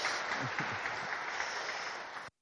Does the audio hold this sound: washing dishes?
no